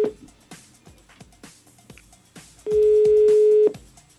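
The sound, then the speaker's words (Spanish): Telephone dialing a call: a few short, evenly spaced keypress beeps and clicks, followed by a loud, steady single-pitched tone lasting about a second. “Momento de llamar al Instituto Milford. Llamando.”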